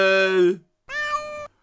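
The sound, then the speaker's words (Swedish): A kitten stuck up in a tree meows twice, clear tonal cries separated by a short pause, the second slightly longer. “kattungen tycks vara ovillig att gå ner från trädet.”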